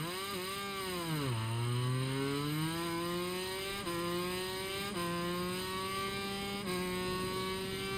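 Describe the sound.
Buzzing whine of a two-stroke motorcycle engine in a video game: a loud, steady, raspy drone whose pitch drops early, then climbs gradually with a few abrupt steps, with no talk.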